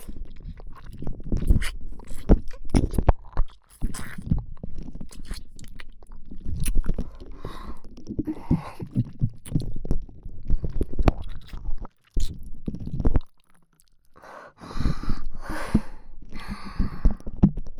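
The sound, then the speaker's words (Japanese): Wet ASMR ear-sucking mouth sounds: many irregular smacks, slurps and sucking pops right at the ear, with a couple of brief pauses. “あなたの耳にたまった私の唾吸ってあげるね。”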